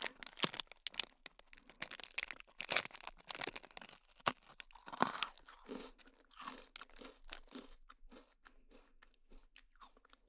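Crunching and chewing as someone eats a cookie whose expiry date they were unsure of: many crisp bites and crackles, busier and louder at first, then quieter, softer chewing toward the end.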